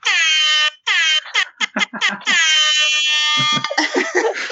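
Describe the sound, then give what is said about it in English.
Loud air horn blasts: a long blaring blast, a shorter one, a quick run of choppy bursts, then another long sustained blast, ending in rougher noisy sound. “So I do this thing at work where I sound the air horn in meetings.”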